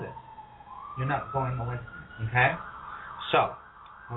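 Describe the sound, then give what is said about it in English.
A city street siren outside in New York wails faintly with a slowly rising pitch beneath a person talking steadily in the foreground. “welcome to New York City, because you can hear all the sirens outside.”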